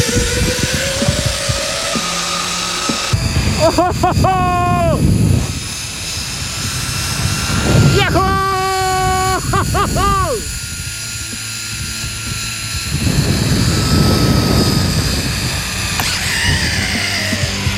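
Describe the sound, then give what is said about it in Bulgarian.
A zipline trolley rides a long alpine cable over a lake surface at about 60 km/h, giving a loud, continuous rushing roar with a wavering, whining tone that bends up and down in pitch several times. “Бръснещ полет над езерната повърхност. Горе-долу скоростта ни е около 60 км в час, така че доста е приятно и доста е бързо. Това е най-дългият алпийски тролей върху водна повърхност у нас.”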